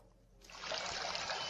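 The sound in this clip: Ciuta mineral water, from a mountain spring, is poured: after a brief quiet moment a steady splashing stream starts suddenly and runs evenly to the end, alone without talk.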